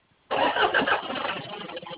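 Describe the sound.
A vehicle engine is started: after a brief quiet moment it catches abruptly with a loud burst, then settles into a rough, uneven idle that continues to the end.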